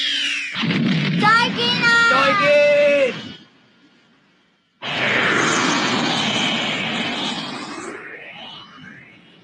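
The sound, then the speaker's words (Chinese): A spaceship flying in a 1987 animated cartoon, a synthetic effect: warbling electronic tones, a brief quiet gap, then a broad rushing roar whose pitch climbs toward the end. “佢咁容易就可以整到呢个太空船出嚟”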